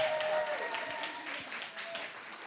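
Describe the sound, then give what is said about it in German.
Faint audience applause at a community gathering thanking its organizers, a soft, scattered patter that stays low and even, with a thin steady tone running beneath it. “lass uns mal Steffi einen Applaus geben”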